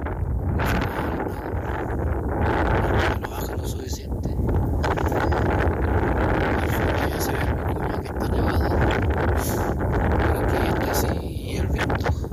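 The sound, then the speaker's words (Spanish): Strong wind buffets a microphone with a continuous roaring rumble that never lets up, and a voice speaks underneath, largely smothered by the gusts. “Mucho viento. ¿Dónde es eso?”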